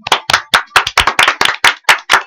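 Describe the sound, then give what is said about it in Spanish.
Sharp, loud hand claps from a studio audience, many crisp separate strikes in a brisk, slightly uneven rhythm with short gaps between them. “Aplausos.”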